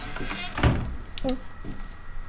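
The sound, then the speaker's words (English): A door closes with a single dull, low thunk that stands out over a faint steady background hum. “The door closed.”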